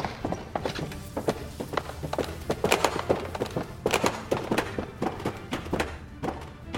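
Footsteps going down a set of stairs aboard a ship: many hollow thumping steps in an uneven rhythm, fairly loud and heard alone.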